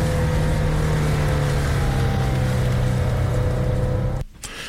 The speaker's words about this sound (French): Sortie d'agglomération. Donc ? Oh, on accélère. Eh oui, on accélère. Pas trop.